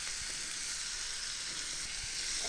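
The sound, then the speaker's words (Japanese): Onions sizzle loudly as they are added to a hot pan, giving a steady, dense frying hiss that continues without a break and with no talk. “さあそしたら玉ねぎを加えましょう。”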